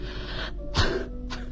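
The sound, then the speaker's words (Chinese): A woman coughs repeatedly in a few short, harsh bursts over a steady low hum. “海伦不停地咳嗽着，我翻来覆去的睡不着。”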